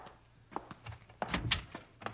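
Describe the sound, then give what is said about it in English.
A door is opened in a room, with a few dull thunks and clicks of handling and the latch, fairly quiet and with no talk. “Open that door there behind you.”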